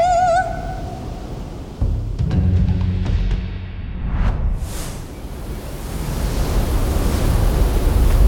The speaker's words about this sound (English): Oh no! That wave is huge! It's coming right for us!